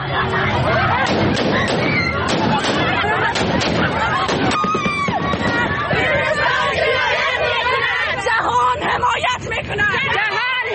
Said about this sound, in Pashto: دا په کابل کې د ښځو هغه اعتراض و چې طالبانو په هوایي ډزو تیتو پراک کړ.